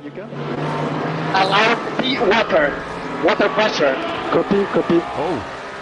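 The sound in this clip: Race car engines drone at speed through Eau Rouge at Spa, a steady low roar running throughout beneath a commentator who talks continuously over it.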